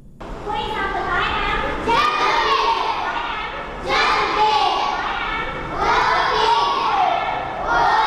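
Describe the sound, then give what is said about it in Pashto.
Children's voices fill a school for working children in Peshawar: a steady, loud babble of many kids talking and shouting at once, with the chatter swelling in waves. “دا اوازونه د خواري مزدوري کوونکو ماشومان لپاره په پیښور کې د رڼا چایلډ ویلفیر فاونډیشن په نامه خوانځي دي”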